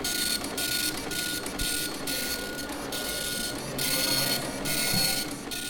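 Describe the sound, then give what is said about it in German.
An Epson LQ 2190 printer in an exhibition prints tweets in real time onto continuous paper. Its loud, buzzing print passes repeat in a steady rhythm, each broken by a brief pause as the line advances. “Echtzeit-Tweet-Protokoll, Epson LQ 2190 auf Endlospapier.”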